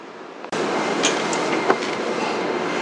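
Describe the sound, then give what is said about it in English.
Subway train noise at Chengshousi station: a sudden loud rumble cuts in about half a second in and then holds steadily, with a few brief squeaks and clicks rising out of it. “承寿寺站到了， We are arriving at 承寿寺 station。”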